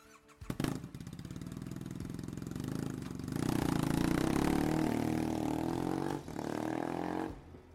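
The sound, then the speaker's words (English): A straight-pipe Triumph Bonneville motorcycle engine fires with a sharp burst, settles into a loud, rumbling, throbbing idle, then revs to a higher, harsher steady roar, dips briefly and picks up again before cutting off. “I'm Jed, and I ride a straight pipe Triumph Bonneville. Here's how it sounds.”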